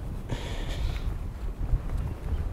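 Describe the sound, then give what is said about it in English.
Strong wind blows outdoors while birds are being filmed, buffeting the microphone with a steady low rumble and occasional gusts. No talk is heard. “A lot of wind.”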